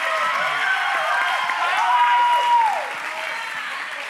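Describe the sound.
Audience applause welcoming a guest onto the stage, steady clapping beneath a speaking voice, dropping in level partway through.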